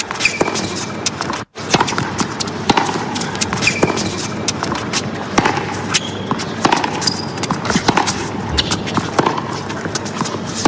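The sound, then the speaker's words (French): Tennis balls are struck at a tournament, many sharp pops and thuds recurring in an uneven rhythm over a dense, steady wash of background noise. “On dirait un tournoi de tennis. Ah, c'est très précis, oui. Mais c'est ça.”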